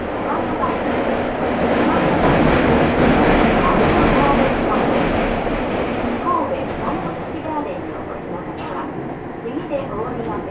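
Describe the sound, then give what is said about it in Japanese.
Train running on a line bound for Sannomiya: a steady, loud rumble with rattling and clatter that holds an even level throughout. “This train is bound for 三宮花時計前。The next stop is 駒ヶ林。”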